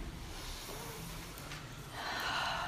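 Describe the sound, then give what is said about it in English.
A deep breath drawn in, soft and airy, swelling noticeably louder over its final second. “And as we prepare for this, let's take in a breath”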